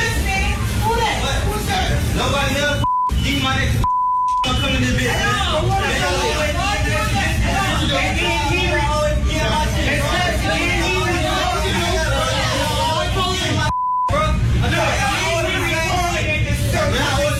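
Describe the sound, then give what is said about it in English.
Dense crowd chatter inside a busy Popeyes fast food restaurant, a steady wash of many voices, broken by three short mid-pitched beeps. “Based upon the beeps and the amount of people in that facility, that's Popeyes.”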